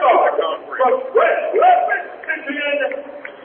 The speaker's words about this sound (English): It's a public address announcer, and I'm sure you can hear him in the background. He's introducing the starters to the crowd here.